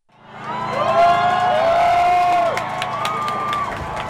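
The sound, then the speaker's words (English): Protesters cheer and whoop as they storm Hong Kong's legislative building. The roar of voices swells quickly from silence and holds loud and steady, with individual shouts rising above the crowd. “That's the sound of protesters cheering as they stormed the legislative building in Hong Kong, going floor to floor,”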